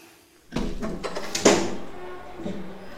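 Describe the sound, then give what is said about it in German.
A window is opened: a rough sliding rumble starts, then a sharper clack cuts in midway, followed by softer, fading movement noise. “Können Sie das Fenster öffnen?”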